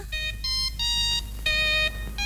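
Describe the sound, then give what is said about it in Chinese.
Opening jingle of a children's radio program: a short, fairly faint melody of bright, clear tonal notes in quick phrases with brief pauses, without voices. “就是70、80都会听到的那个小喇叭广播站的那个播音的那个板头，给大家再回顾一下哈，我们来听听看。”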